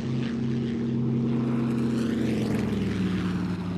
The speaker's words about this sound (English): a new sound emerges. The sound of numerous aircraft over Koh Phang Bay.